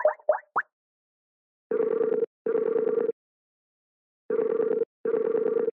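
Phone call ringing tone as guests are dialed into a call: a few short blips, then four steady mid-pitched tone bursts in two pairs separated by a pause, heard alone without voices.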